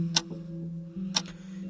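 A ticking clock that has just been started, faint tick-tock pairs about a second apart, each a sharp click followed by a softer one, over a low steady hum.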